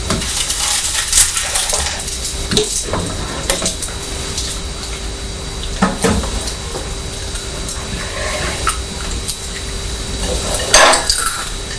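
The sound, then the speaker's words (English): Cornflakes crunched from a bowl: sporadic crisp crunches and clinks of spoon on dish over a steady low background, with a few louder bursts standing out. “I can hear you crunching the cornflakes.”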